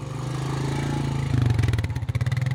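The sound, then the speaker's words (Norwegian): An ATV engine revs as it is put in gear and driven up a steep hill: a steady low mechanical drone that swells midway into a louder, pulsing roar. “setter ATV-en i gir og klemmer inn gassen”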